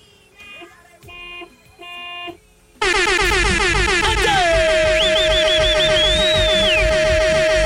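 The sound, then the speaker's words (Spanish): A driver's car horn honks three times, each blast about half a second long with a steady, brassy tone and short gaps between. A loud, sustained din follows, with a high whistling tone running through it. “Ok, así de fácil, regálame tres claxonazos, mi rey, venga.”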